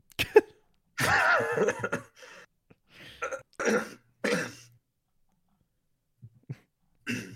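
Someone clears their throat in a series of harsh, rasping bursts, one long and loud, then several shorter hacks. A few faint small sounds follow after a pause.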